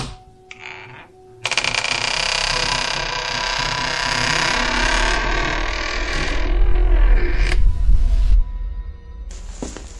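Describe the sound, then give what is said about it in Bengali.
A door creaking open loudly: a long, harsh, grinding creak sustained for several seconds, thickening with a heavy low rumble toward its close before cutting off. “হঠাৎই তাকে অবাক করে দিয়ে সশব্দে খুলে যায় দরজাটা”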